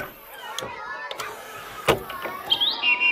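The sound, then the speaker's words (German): A blackbird sings from a bird-song CD, giving a run of bright chirps and warbling phrases. A thin, high, rising whistle closes the phrase, and the song is moderately loud with no talk over it. “So schön singt die Amsel.”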